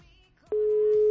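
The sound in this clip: A telephone busy tone sounds after the other party hangs up: a faint murmur of background noise gives way to a single steady, mid-pitched tone that holds loud and unbroken to the end.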